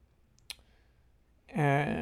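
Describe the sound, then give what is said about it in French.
A single sharp computer mouse click, followed after a short pause by a voice starting to speak. “Donc, je clique sur les hommes de l'UTMB, puisque c'est la course qui me concerne.”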